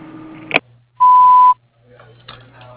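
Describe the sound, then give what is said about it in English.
An answering-machine voicemail beep: a single clean, steady mid-pitched tone lasting about half a second, alone, with brief faint sounds before and after it. “leave a message after the beep, and I will return your call as soon as possible.”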